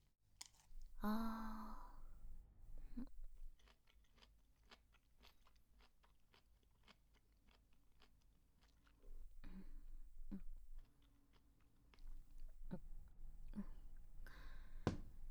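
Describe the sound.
Someone eating oysters, with faint wet chewing: many small clicks and soft crunches in bursts, separated by quieter stretches.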